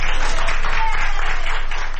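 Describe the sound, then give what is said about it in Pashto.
Doctors and nurses in Madrid applaud a 104-year-old woman who recovered from coronavirus, a dense, steady, even clapping that holds at the same level throughout. “د اسپانیا په پلاسمینه مادرید کې ډاکټران او نرسان هغې مېرمنې ته چکچکې کوي چې تر سلو کلونو تیره ده او له کورونا رغېدلې ده.”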